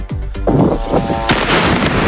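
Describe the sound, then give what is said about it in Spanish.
Artillery fire exchanged at night in Lebanon between Hezbollah and Israeli forces; a few loud, sharp booming reports, each trailing into a rumbling roar, with no voices. “Este es el sonido de lo que ha pasado esta noche en el Líbano. Ha habido intercambio de fuego entre las dos partes, entre Hezbollah e Israel.”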